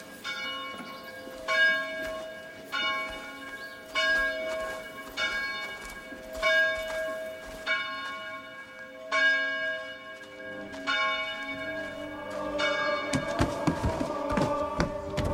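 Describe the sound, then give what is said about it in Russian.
Church bells ring in a steady, evenly spaced peal, each stroke leaving a long, bright, shimmering tone. Toward the end the strokes crowd closer together and the sound thickens. “Подойдя к церкви, слышит колокольный звон.”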